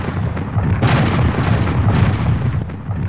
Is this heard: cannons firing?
yes